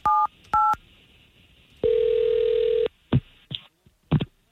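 A telephone number is dialed: two short dual-tone keypress beeps, then a long steady tone lasting about a second, then a few brief sharp bursts. The sounds are loud and clear, with no talking.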